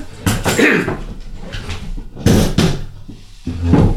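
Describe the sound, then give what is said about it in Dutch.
A potato pushed through a French fry cutter set on the floor, giving a few heavy clunks and scraping thumps spread over several seconds, with quieter rustling between them. “Maar als ik hem nou in die patatsnijer doe en ik ga hem gebruiken ik zet hem even op de grond, want...”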